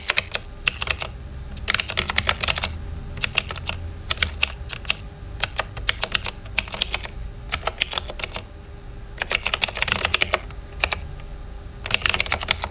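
Computer keyboard keys pressed in quick bursts of sharp, crisp clicks, clustered into several runs separated by brief pauses.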